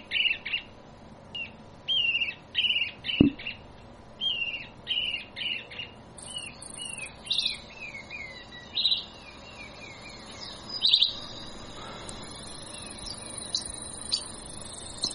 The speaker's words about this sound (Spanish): ¿Saben qué pajarito es este? Este es el chinchero chico.